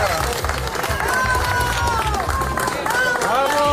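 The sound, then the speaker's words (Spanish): A crowd applauds Spanish military emergency unit rescuers after a rubble rescue in Baruta, near Caracas. Dense clapping blends with cheering and voices throughout. “Aplausos al personal de la UME desplazado al país latinoamericano después de recuperarlo.”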